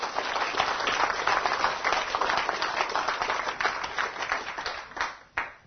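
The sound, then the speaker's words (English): A British audience applauds, a dense, continuous wash of many hands clapping at even loudness that thins out near the end into a few last separate claps. “Give yourself a good hand right now. Yes!”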